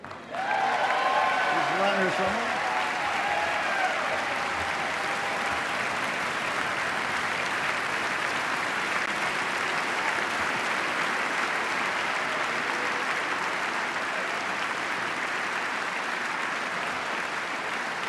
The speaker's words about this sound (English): and sustained applause for First Lady Michelle Obama.